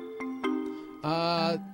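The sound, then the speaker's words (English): An electronic ringtone melody: two brief harmonic-rich notes, then a longer, brighter held note that cuts off cleanly, played fairly quietly with no talk over it. “Wait, isn't this a ringtone?”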